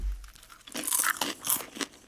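Crunching of a snack as two pieces are bitten into and chewed at once, a puffy food likened to packing foam; a few sharp, crackly bursts of loud crunching with no talk over them.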